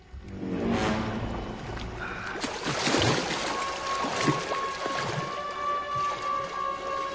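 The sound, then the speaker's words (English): Water splashes near a man standing in water beside a wall. Sloshing, watery noise comes with a few short splash bursts over a soft sustained tone, at a moderate, uneven level. “Something splashes into the water close to Gary, who glances over his shoulder.”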